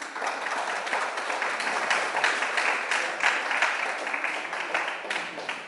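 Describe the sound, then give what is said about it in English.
Audience applause at an award announcement for a film festival's audience prize: dense, steady clapping that holds at an even loudness for about six seconds with no speech over it. “Could we have a round of applause for her?”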